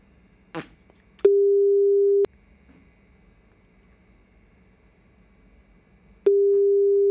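Telephone ringing tone on an unanswered call back: after a short rustling click, a steady mid-pitched tone sounds for about a second, falls silent for about four seconds, then starts again, with no voices.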